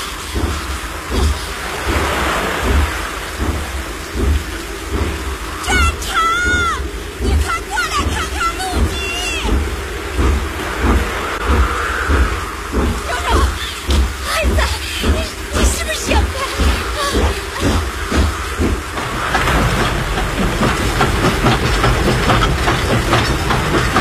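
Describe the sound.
A train rolls slowly onto a flooded track bed, its steady low rumble carrying a rhythmic clickety-clack of wheels over rails beneath a continuous rain-like hiss.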